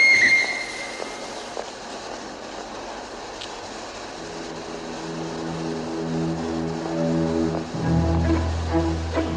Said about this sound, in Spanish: El tren sale.